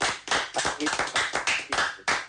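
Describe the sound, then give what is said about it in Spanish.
Applause from an audience, dense continuous hand clapping that swells and dips in rhythmic waves, fairly loud and steady throughout with no voices over it. “desde La Plata y este aplauso es para vos y a seguir trabajando”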